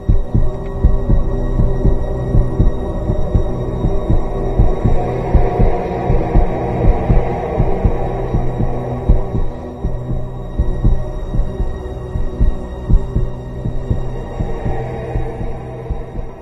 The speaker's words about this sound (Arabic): بدأ قلبي، دقات قلبي فعلا تزيد وتتسارع بسرعة جدا